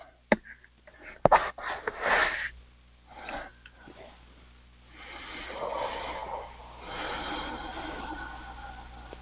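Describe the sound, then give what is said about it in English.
Several deep breaths during a guided healing session: slow, fairly soft inhales and exhales with a breathy, slightly sniffing texture, each drawn out over a second or more. “And take several nice deep breaths.”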